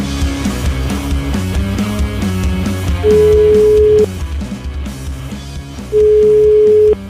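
Ringback tone of a telephone call being placed to a radio listener: two steady, mid-pitched tones of about a second each, separated by a pause, sounding over continuous background music.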